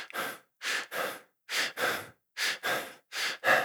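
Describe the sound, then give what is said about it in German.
Fast, shallow breathing through the mouth, as when stressed or excited: many quick, airy breaths in close pairs, in then out, separated by brief pauses, fairly faint and with no talking. “Weil wenn ich nämlich gestresst bin oder aufgeregt bin, dann atme ich primär erstmal durch den Mund und dann genau. ziemlich flach. Sieht dann so aus.”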